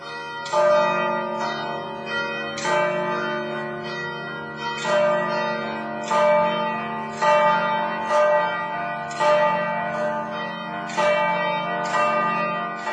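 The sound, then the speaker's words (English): Church bells ringing in a cathedral square: many resonant bell strikes at a steady, measured pace, their layered tones sustaining between hits, with no speech. “So very clear soundscape there, absolutely not quiet, absolutely not silent with Cathedral Square.”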